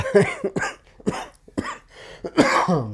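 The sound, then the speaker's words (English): A person with a cough lingering for about six weeks coughs loudly several times in a row, with harsh, uneven bursts and some throat clearing between them. “I've had a cough for ever since for like 6 weeks.”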